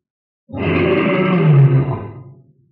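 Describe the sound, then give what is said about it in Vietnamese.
A single deep, throaty roar from a crocodile bursts out suddenly, holds as a rough, low growl for about two seconds, then tapers off into silence. “Ở xa xa, cá sấu gầm lên một tiếng nữa.”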